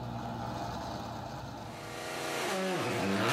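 Rally car engine on the Toyota City super special stage, a loud, steady drone of revs that dips briefly and then climbs again near the end.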